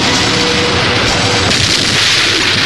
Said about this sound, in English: The blast-off was perfect.